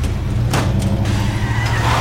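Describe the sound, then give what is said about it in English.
A truck engine revs to life with a loud, deep, rumbling drone and steady low tones, broken by a few sharp bursts of noise. “You gun the engine to life as he pounds on the door.”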